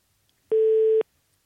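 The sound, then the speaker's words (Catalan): A telephone busy signal: a single steady, mid-pitched electronic tone lasting about half a second, heard alone against silence. “Ara comunica el Josep Maria.”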